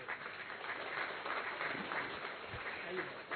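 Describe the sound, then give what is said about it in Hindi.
Sustained, dense applause from an audience clapping together in welcome at a gathering at Gyan Sarovar, an even wash of hand claps holding steady throughout. “हम सभी एक बार करतल ध्वनि से हम सभी का स्वागत स्वयं करेंगे।”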